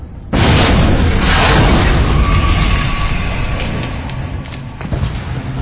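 A primed explosive charge detonates with a sudden, loud blast, then a long, roaring rumble that slowly fades over several seconds, with a few faint crackles near the end.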